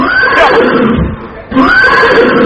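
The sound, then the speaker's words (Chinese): A horse neighs twice in a folk stage play scene where a rider takes a horse for a rough mountain road; each whinny is loud and shrill, with a quavering, falling pitch, and the second follows a brief pause. “好，那咱们就骑马 啊 马来了。 哎，这马，嘿”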